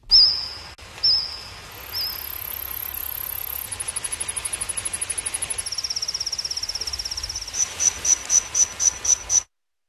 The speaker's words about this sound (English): a co-author of a new study that recreated the sounds made by various species of insects during the Jurassic era.